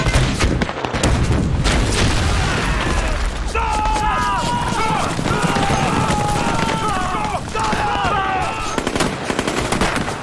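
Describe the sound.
Machine-gun fire crackles in rapid, loud, continuous bursts in a battle scene, with shouting voices rising over the shooting partway through.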